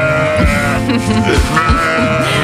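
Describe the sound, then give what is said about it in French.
A ewe bleats in a few loud, wavering, nasal cries that rise and fall, one after another. “elle parle à une demoiselle de 14 ans, sa brebis.”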